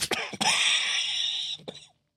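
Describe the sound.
A man coughs, with a few harsh, rough bursts at the start and again near the end, framing a drawn-out, strained breathy sound in between; no words are spoken.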